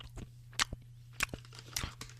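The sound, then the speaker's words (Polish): Peanuts being eaten: faint crunches and chewing, with several sharp bites scattered among softer mouth noises over a low steady hum. “To wy też lubicie słuchać, jak ja jem. O, mam tu orzeszki.”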